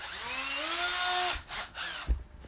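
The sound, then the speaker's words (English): A power drill whirs with a high, steady whine that climbs slightly in pitch for over a second, then cuts to a couple of short revving bursts and a brief final blip. “Power drill time.”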